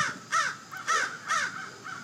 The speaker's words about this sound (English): Yeah, there's a crow. Maybe you can hear the crow in the podcast.